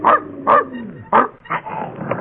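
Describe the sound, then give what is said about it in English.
A dog that is unfriendly to strangers barks in a few sharp, mid-pitched bursts, fairly loud and evenly spaced, with quieter gaps between them. “Where's that dog? Probably in the elevator.”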